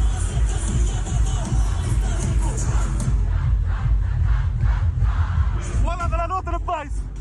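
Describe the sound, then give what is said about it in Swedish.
A festival crowd on Åland sings along loudly to a song, a dense wall of many voices that carries on without a break and ends with a few strained, shouted notes. “Men när jag spelade den låten, och de sjunger, jag har aldrig hört en publik sjunga sådär.”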